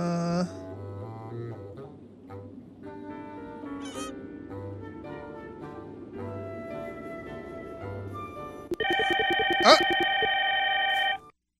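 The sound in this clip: A telephone rings with a loud, sustained electronic trill near the end, after a longer stretch of people talking with soft tonal sounds beneath.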